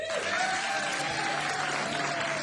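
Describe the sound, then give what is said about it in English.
An audience applauds to welcome a band onto the stage, with dense, continuous clapping that stays loud and even throughout. “So would you please put your hands together and welcome the Sick and Indigent Song Club.”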